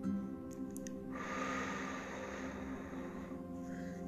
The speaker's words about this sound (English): I want you to first start off with a deep breath in. Hold it.